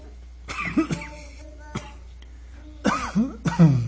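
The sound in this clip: Coughing fit from a person whose drink went down the wrong way: several harsh, irregularly spaced coughs mixed with throat-clearing, loud against a quiet background.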